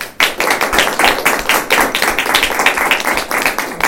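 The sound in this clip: An audience applauding to welcome a speaker at a lecture: loud, sharp claps in a fast, fairly even rhythm throughout, with no talk.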